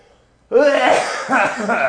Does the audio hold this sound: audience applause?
no